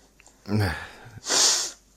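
A person blowing their nose: a short, snorting burst followed by a longer, loud, airy blow that fades out.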